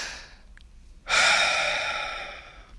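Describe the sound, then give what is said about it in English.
A single deep breath drawn in with a sudden breathy onset, then held as a long airy rush that slowly fades. Before it come only faint, soft breathing noises. “take a step back, take a deep breath, just go”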